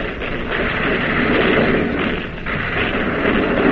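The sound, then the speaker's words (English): Warship main battery guns firing shells at an enemy cruiser during a naval battle, heard as a dense, continuous, loud rumbling roar with no separate shots standing out. “Now the main battery of the Boise is pumping shell to the second Jap cruiser.”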